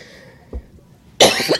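A person coughs once, loud and harsh, after a faint throat sound and near silence.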